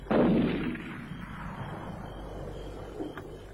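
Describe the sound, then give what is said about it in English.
A single loud gunshot, fired by a man shooting at a tree, booms at the start and trails off in a long, rumbling decay that fades slowly. No voices are heard. “He's round the bend shooting at trees.”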